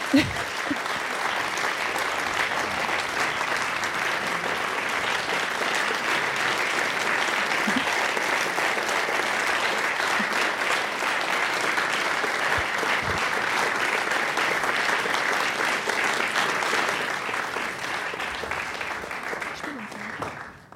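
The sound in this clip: Long, sustained crowd applause at a German-language radio event, an even roar of many hands clapping that holds steady for around twenty seconds before tapering off at the end.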